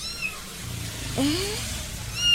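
A cat meowing once: a single short, faint meow whose pitch rises and then falls, heard over a soft steady background hiss.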